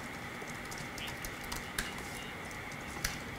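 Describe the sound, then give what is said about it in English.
Faint typing on a computer keyboard while notes are written, heard as soft, irregular key clicks with a few sharper taps over a quiet hiss. No talk. “I'm writing notes here in the YouTube descriptor.”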